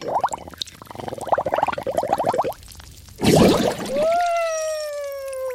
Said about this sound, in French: Mais qu'est-ce que tu fais à barboter dans le lavabo ?